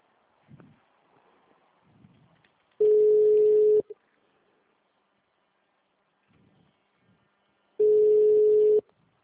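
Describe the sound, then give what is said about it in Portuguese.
Ringback tone of an outgoing telephone call: two steady mid-pitched tones, each about a second long and roughly five seconds apart, with faint rustles and small noises in the gaps between them. “Tô ligando.”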